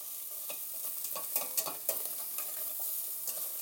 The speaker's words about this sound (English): That's that stirred round.